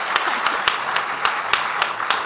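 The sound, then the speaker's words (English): Audience applause for a panel at a history festival evening: continuous clapping with a regular beat of sharper, louder claps standing out at a quick, even pace. “ladies and gentlemen, round of applause for your panel, please.”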